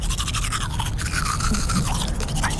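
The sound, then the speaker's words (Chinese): A child brushing their teeth with a toothbrush makes a steady, continuous scrubbing and scraping with rapid, fairly even strokes. No voices are heard. “刷牙洗脸喽！”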